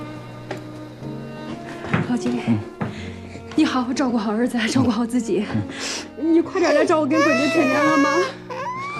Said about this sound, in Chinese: 不要哭了